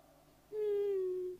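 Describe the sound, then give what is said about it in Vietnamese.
A child crying, one drawn-out wailing sob that starts abruptly and sags slightly in pitch before trailing off, fairly faint against a quiet background. “thôi cháu đừng khóc nữa”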